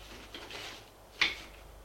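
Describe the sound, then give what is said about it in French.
A desk drawer is opened: a soft, faint sliding rustle, then a single sharp knock as it stops, all quiet. “Va au bureau. Ouvre le tiroir. Cherche. Cherche un indice.”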